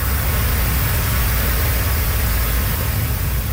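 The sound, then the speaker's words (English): Cars driving over a flooded road in southern Cape Breton after heavy rain and high winds, heard as a constant loud rushing hiss of tyres and water over a low engine rumble, unbroken throughout. “motorists drive over a flooded road in southern Cape Breton”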